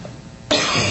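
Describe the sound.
A single harsh throat-clearing cough breaks in halfway through after a quiet start, loud and raspy, with a rough rasp that holds to the end.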